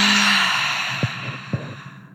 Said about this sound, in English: So as deeply as you can, in through the nose, open mouth, exhale it out.